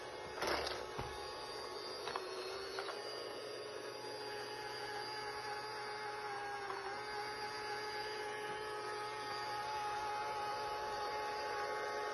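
A one-yuan toy robot vacuum cleaner from Pinduoduo running over a dirty floor, giving a faint, steady motor whine with a few brief clicks near the start.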